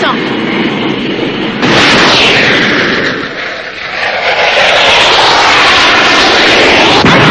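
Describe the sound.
Aircraft engine noise from a plane descending to land: a loud, continuous rushing roar that dips briefly midway, then swells again and holds steady to the end.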